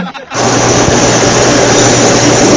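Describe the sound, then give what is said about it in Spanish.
Steady, loud engine drone of a small propeller plane, starting abruptly after a brief quiet and holding constant with a low humming tone beneath a broad roar, no talking. “Ya acaba de pasar una avioneta.”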